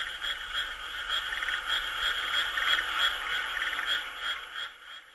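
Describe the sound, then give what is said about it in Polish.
Frogs in Japan croak in a chorus of rhythmic, high, buzzy pulses repeating at an even pace over a faint background hiss, holding steady before dropping away abruptly near the end. “A tak żaby w Japonii.”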